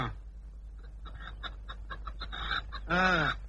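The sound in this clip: A hen that has not laid eggs for four days clucks quietly in a string of short, choppy notes, then gives a louder, drawn-out squawk at the end.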